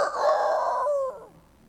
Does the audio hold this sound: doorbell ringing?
no